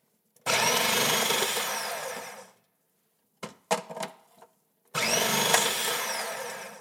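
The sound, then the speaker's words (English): Potatoes being sliced with a fine slicing blade, heard as a loud, steady motorized whir in two long bursts. Between the bursts come a few brief clattering knocks. “with the fine slicing blade and wide side of the potato down, I'm going to slice up some potatoes”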